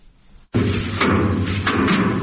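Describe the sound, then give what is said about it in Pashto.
Farmers in the Dand district of Kandahar beat harvested basil to separate it from the stalks. A dense, rustling thrashing noise starts abruptly after a quiet moment and continues loudly, with a few sharper thuds standing out. “د کندهار په ډنډ ولسوالۍ کې کروندګر خپل راټول سوي د ریحانو حاصلات ټکوي تر څو ریحان له بوټو جلا کړي.”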